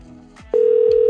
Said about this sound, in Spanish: switchea la llamada para escuchar que está sonando. ¿No? ¿Todavía no suena? Ok. Bueno, ahí está.